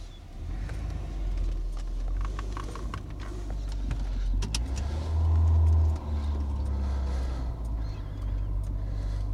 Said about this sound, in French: On reprend la voiture, on va reprendre l'autoroute.